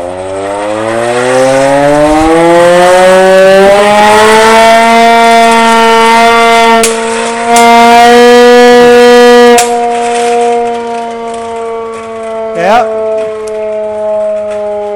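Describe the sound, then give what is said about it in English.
An old hand-cranked air raid siren horn of the Blitz era in Belfast winds up into a loud wail, its pitch climbing over the first few seconds, then holding a sustained howl with a brief waver near the end. “Some of the older folk might remember these from way back in the day whenever there was the Blitz in Belfast. I hope we don't have to listen to them again, but I'm going to try to crank it up here and let you get a listen to the rip of this old horn, okay?”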